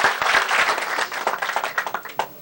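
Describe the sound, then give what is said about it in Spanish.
Applause honouring the workers and engineers of a public works project: a dense burst of clapping that thins into scattered single claps near the end. “Yo felicito a los trabajadores, a los ingenieros de esta obra. Les damos un aplauso desde el fondo del corazón.”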